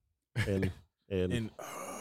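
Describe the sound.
A voice imitating a video game character's grunts, with two short, voiced, grunting bursts followed by a breathy, noisy tail.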